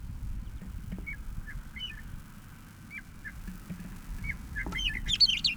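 A bird calls faintly in the background, giving scattered short, high chirps over a steady low rumbling noise that get a little busier toward the end.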